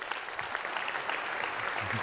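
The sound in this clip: Steady, dense applause from an audience welcoming a guest, a former NFL defensive back who played in the Super Bowl, fills the whole stretch at an even level.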